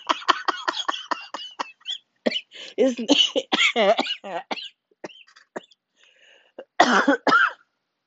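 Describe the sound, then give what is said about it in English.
Coughing after choking on wine: a rapid run of short, sharp coughs, then a few longer, harsher fits with gaps between them, loud and mostly alone. “Excuse me, I don't have the COVID that I think. Anyways, that's cracking me up, obviously, to the point that I just choked on my wine.”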